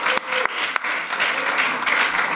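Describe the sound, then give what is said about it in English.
Audience applause welcoming a guest on stage: steady, dense clapping throughout, with a few sharper individual claps standing out. “My next guest is Joe Garofoli. Joe is the... let's give it up for Joe.”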